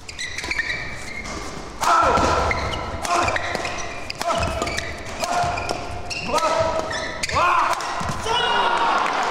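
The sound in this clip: Badminton rally with a shuttlecock struck back and forth by rackets during play: sharp, percussive hits land at irregular intervals over a busy, continuous background, with a few brief tonal squeaks in between.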